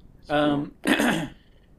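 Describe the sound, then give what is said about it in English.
A person clears their throat in two short rasping bursts in quick succession, the first more voiced and tonal, the second rougher, with no talk around them. “Throat clearing.”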